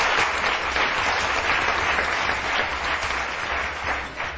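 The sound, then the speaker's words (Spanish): Sustained audience applause at a live comedy show: a dense, steady wash of many hands clapping throughout, fairly even in loudness, with no single voice standing out. “Un aplauso para ellos y comenzamos.”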